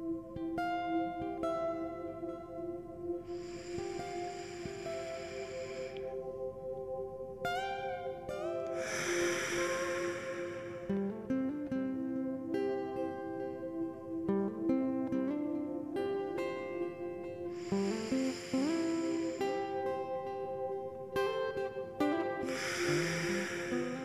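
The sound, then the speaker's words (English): Slow, deep breaths, each a long soft rush of air in and out, rise and fall a few times over gentle, steady background music during a relaxation exercise. “Let's take 3 deep breaths together as we begin to relax our body and mind.”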